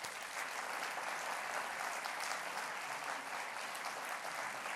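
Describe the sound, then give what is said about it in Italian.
Audience applause for the technical crew at a jazz lecture: soft, dense, steady clapping that holds evenly for the whole stretch, with no talk over it. “non abbiamo, devo dire, colpevolmente mai ringraziato i tecnici, che non sono pochi, che lavorano all'audio, al video, alle luci, quindi farei un applauso.”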